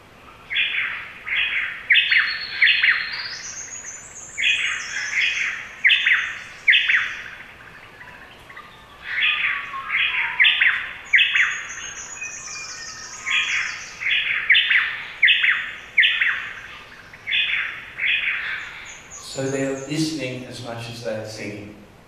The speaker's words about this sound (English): This is a white-eared honey eater that lives in the front garden of where we live, and they are wonderful counter-singers. Have a listen to these two white-eared honey eaters as they call backwards and forwards to each other.